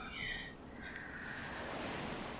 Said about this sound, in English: The sound of the waves,